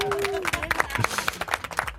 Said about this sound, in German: Vielleicht noch einen großen Applaus von allen Mitarbeitern.